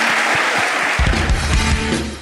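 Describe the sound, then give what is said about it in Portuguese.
Loud, steady applause for pastors at a church talk, a dense clapping wash that lasts the whole moment, with some low thumps joining partway through. “mais uma salva de palmas para eles.”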